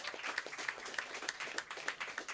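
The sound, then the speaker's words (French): An audience applauds for the event's technicians, giving steady, evenly paced clapping that stays fairly faint and continuous, with no speech over it. “Hey, j'aimerais ça qu'on donne une grosse, grosse main d'applaudissement à nos techniciens qui sont ici depuis très tôt cet après-midi.”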